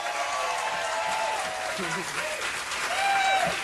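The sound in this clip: Applause from a packed house at a live concert: dense, continuous clapping from a large audience that holds steady and swells slightly toward the end.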